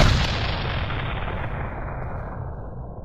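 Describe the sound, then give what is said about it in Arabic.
A newly gifted cannon is test-fired once, a loud booming blast at the very start trailing into a long rumbling decay that slowly fades. “وصديقنا خوشقدم راسه وقال في سيف إنه يجرب المدفع أول ما وصل. فعمر يا ابني انت وهو واضرب كده وسمعني صوته.”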